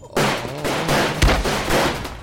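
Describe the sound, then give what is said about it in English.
Gunfire in a firefight aboard a yacht: a dense, rapid barrage of shots rattles almost without pause. One heavier, sharper crack stands out near the middle. “I ducked and slid through the barrage of bullets.”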